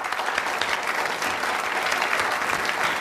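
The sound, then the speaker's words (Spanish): Loud applause greets a female comedian coming onto the stage, with dense, continuous clapping from the audience at a steady level and no distinct voices. “Reciban con un fuerte aplauso a una chica muy divertida cuyo nombre querrán recordar.”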